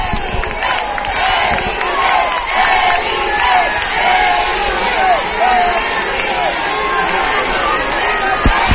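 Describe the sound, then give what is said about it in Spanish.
A crowd of people cheers and shouts at Plaza de África and Avenida López Sánchez Prado during a royal appearance. The roar of many voices stays loud and continuous throughout. “escucharán ustedes ahora mismo a las personas que están en esta zona de la Plaza de África, también de la Avenida López Sánchez Prado, se acerca, escucharán ustedes, vamos con el sonido ambiente.”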